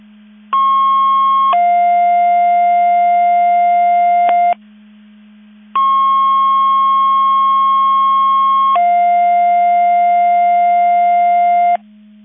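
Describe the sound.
Fire dispatch alerting tones play for a MABAS Division 5 mutual aid receiver test in McHenry County: two loud, steady sequences, each a higher tone stepping down to a longer lower tone, separated by a short pause over a constant low hum.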